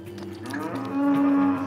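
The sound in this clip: A cow or calf mooing during a difficult calving with the calf lying in the wrong position: one long, low, droning moo that swells louder toward its end, heard alone with no talk.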